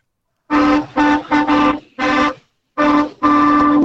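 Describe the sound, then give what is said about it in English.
A truck's train horn sounds loud and chord-like in a rapid series of short blasts, ending with a longer sustained blast. “That's a train horn.”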